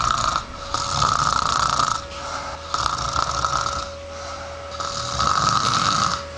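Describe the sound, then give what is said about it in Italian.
Rhythmic snoring: several loud, raspy snores in a steady cycle, each a rough drawn-out rumble separated by short quieter gaps, alone without any talking. “quindi si inizia a russare presto, molto spesso.”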